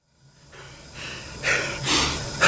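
Heavy, rapid panting follows hard pedalling on an exercise bike. About five breathy gasps come in quick succession, each louder and harsher than the one before.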